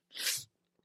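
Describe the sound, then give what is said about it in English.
A single held-back sneeze: one short, breathy burst that swells and cuts off within half a second, followed by a faint click and then quiet, with no talking. “I swallowed it. I swallowed the sneeze.”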